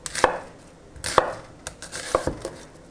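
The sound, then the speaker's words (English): A knife chops an onion into half-inch squares, giving a few sharp, separate chops on a cutting board with short pauses between them and no voices. “So I'm cutting my onion into, I don't know, half-inch squares, basically.”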